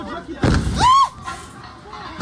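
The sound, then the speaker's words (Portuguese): Manhole covers burst in a street in Itaquaquecetuba, São Paulo, after a fire at a solvent factory. Two dull blasts, one early and one at the very end, are separated by excited voices. “Bueiros explodem após incêndio em fábrica de solventes em Itaquaquecetuba, São Paulo. Veja bem. Explodiu lá na fábrica. Mas os bueiros da rua vieram explodindo, ó.”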